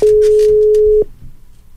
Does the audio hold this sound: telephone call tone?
yes

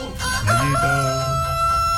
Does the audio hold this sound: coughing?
no

